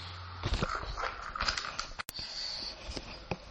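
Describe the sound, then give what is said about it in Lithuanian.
A door is opened with a few faint knocks and scrapes from the handle and frame, then one sharp click partway through, followed by more light rattling. “Kad biškai sustabdyti, man reikia atidaryti duris.”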